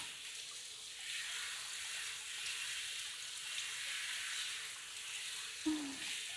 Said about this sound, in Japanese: それじゃシャワーを準備して、湯加減はよし。じゃあ洗い流していきますよ。